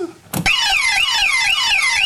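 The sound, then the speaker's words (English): An electronic burglar alarm, said to come fitted in a synthesizer, starts with a thud and then wails in loud, high, rapidly repeating up-and-down sweeps that carry on steadily with no talk. “And it comes fitted with a burglar alarm too? A burglar alarm?”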